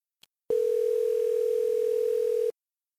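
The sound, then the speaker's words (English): A telephone dial tone as a number is about to be dialed: one steady, mid-pitched continuous tone lasting about two seconds that starts and stops abruptly, with a faint click just before it. “who's dialing the number right now”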